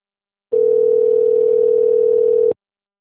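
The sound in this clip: A telephone dial tone sounds as one steady, unbroken single-pitch hum, lasting about two seconds on its own with no voices.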